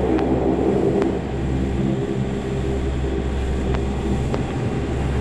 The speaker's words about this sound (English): this will be a rolling takeoff. I'll set power to 15,000.